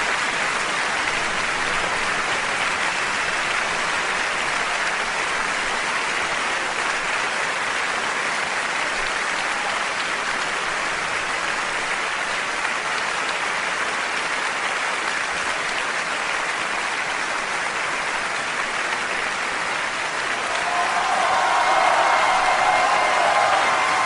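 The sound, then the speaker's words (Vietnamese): A burst of applause fills an auditorium after a speech, a dense, steady roar of many clapping hands that holds evenly throughout and swells slightly toward the end. “Một tràng pháo tay bùng lên.”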